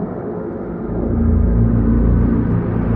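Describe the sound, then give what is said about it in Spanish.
A car drives along a city avenue lined with lit shop windows at night, its engine making a low steady rumble. The drone swells after about a second and then holds at an even level. “De noche, un coche circula por una avenida plagada de establecimientos con los escaparates iluminados.”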